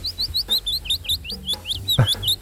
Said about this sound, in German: Habt ihr wahrscheinlich noch nie gehört, ich auch nicht, aber klingt sehr, sehr schön. Der Fitis-Laubsänger.